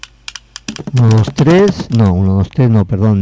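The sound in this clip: Computer keyboard typing: a quick run of light clicks, then a person speaks over it.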